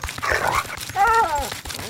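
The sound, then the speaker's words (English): A dog barks and yelps in a few sharp harmonic bursts. The loudest call comes about midway and is followed by softer, fading cries over low background rustle. “Fucking dog's losing it.”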